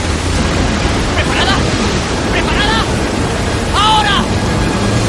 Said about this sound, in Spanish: El extremo de la popa llega al agua y se sumerge entre borbotones.